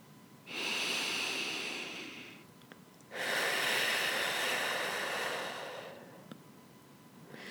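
Two long, deep breaths, one in and one out, during a guided breathing exercise. Each is a soft, airy rush that swells and then fades, with a short pause between them and no talking.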